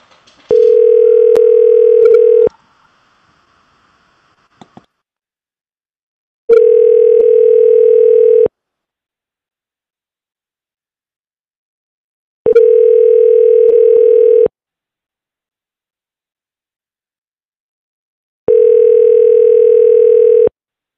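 Four loud, even, mid-pitched telephone ringing tones play as a call is placed during a live call-in show. Each tone lasts about two seconds and is followed by roughly four seconds of silence.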